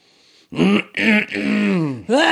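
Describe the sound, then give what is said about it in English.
Throat clearing: a few loud, strongly voiced, rasping bursts in quick succession, harsh and drawn out, rising from near silence and ending abruptly. “Who does that? What kind of animal clears their throat like that?”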